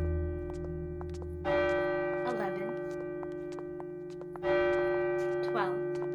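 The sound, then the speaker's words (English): Courthouse clock striking the hour, two heavy bell strokes about three seconds apart, each ringing out and slowly decaying over a steady sustained tonal background. “The courthouse clock struck the hour, but the sounds went across a town that was empty.”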